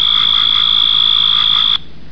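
A loud insect-dominated forest chorus holds a steady, shrill high-pitched drone that stops abruptly near the end, leaving only a faint background hiss.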